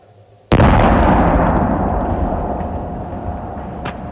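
An explosion sound effect for a Halloween-alternative Pumpkin Blast event: one sudden, loud bang breaks a quiet hum, then a long rumbling roar slowly fades away.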